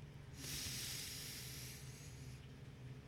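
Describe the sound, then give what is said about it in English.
A deep breath drawn in as a long, airy hiss lasting about two seconds, swelling quickly and then fading, with no talk over it. “Do it one more time with me. Take in a deep breath.”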